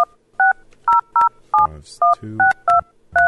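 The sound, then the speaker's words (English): Touch-tone keypad beeps as a phone number is dialed, a quick, irregular run of many short two-tone beeps with brief low thuds between some presses. “Tonight, he finally works up the courage to call her.”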